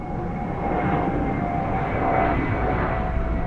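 An airplane flying near Boston's Logan Airport gives a steady, loud roaring drone with a faint sustained whine that holds level throughout, with no voices.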